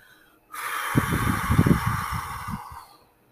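A person breathes out during a breathing exercise: one long, steady, airy exhale that lasts about two and a half seconds, with a soft rough rumble underneath. It stops abruptly.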